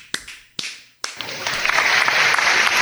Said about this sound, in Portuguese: Aí é mais uma salva de palmas, por favor.